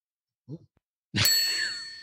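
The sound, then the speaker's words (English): A bell is struck once with a clear, bright ding that keeps ringing as a steady sustained tone and slowly fades. A faint brief knock comes just before it. “And that bell. Oh, that bell's lost some of its lust. I seem to remember it sounding more like bell-like sounding”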